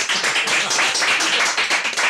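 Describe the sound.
Audience applause at a live evening show, dense clapping that swells and dips in regular waves and stays loud throughout.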